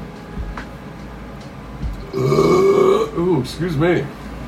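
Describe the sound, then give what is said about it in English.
A long, deep burp after a meal of sausage rolls rumbles loudly for nearly a second, followed by a couple of shorter voiced sounds. “excuse me on that burp. I can't help it. That was the meal. that was the fucking sausage rolls, man.”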